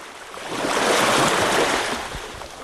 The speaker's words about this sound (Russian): За кормой струился пенистый шипящий след.